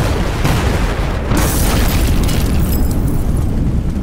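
Firecrackers exploding in a loud, continuous barrage of sharp cracks and booms that stays dense and intense throughout.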